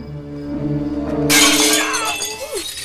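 Glass shattering as a window is broken in to get into a garage: a sudden, loud, bright crash partway through, followed by a sustained spray of tinkling fragments.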